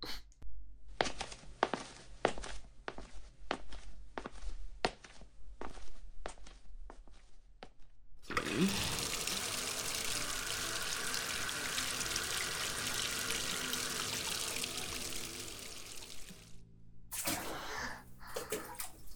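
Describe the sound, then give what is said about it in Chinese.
A bath fills with running water: steady footsteps come first, then water gushes from the tap in a loud, continuous rush for about eight seconds. The flow stops abruptly, and a few soft knocks follow. “我去放水，乖乖的等我呀。”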